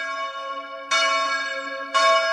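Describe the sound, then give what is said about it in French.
Church bells ringing in full peal: loud, sustained metallic tones with rich overlapping overtones, renewed by two fresh strikes about a second apart while the earlier ringing still hangs. No voices. “Les cloches sonnent à toute volée.”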